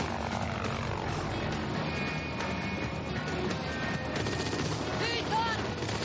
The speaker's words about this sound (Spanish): Fuera el helicóptero sobrevuela las instalaciones.